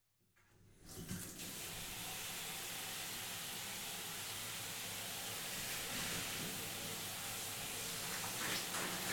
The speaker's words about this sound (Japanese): じゃあ、このままシャンプー流していきますね。